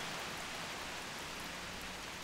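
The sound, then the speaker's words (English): Heavy rain pouring down in a dense, steady hiss, unbroken and even throughout with no voices. “rain pouring from the sky”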